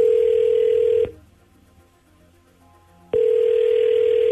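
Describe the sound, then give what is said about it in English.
A telephone line tone on an outgoing call: a loud, steady mid-pitched tone cuts off, leaving near silence for about two seconds, then sounds again. “Well, let's dial him up.”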